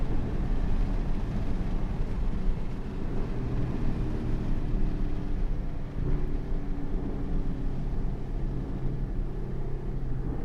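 Porsche Cayenne engine accelerating hard in manual mode with the windows down: a loud, steady low rumble that holds throughout, with one brief dip partway through and no voices.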